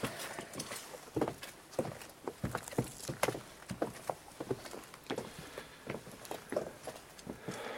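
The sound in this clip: Hooves of a mare walking, clopping in quiet, slightly uneven steps that continue steadily throughout.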